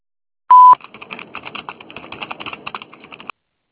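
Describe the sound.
A voicemail tone: one short, loud, steady beep, then a long run of many quick soft clicks and taps.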